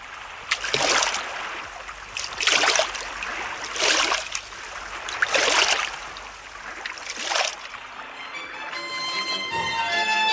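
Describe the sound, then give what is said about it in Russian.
Oars row a boat through water in an audio fairy tale, making five rhythmic swishing splashes spaced about every second and a half over a steady watery backdrop, with music entering at the end. “А ну-ка всем лодку! На весла! Вперед!”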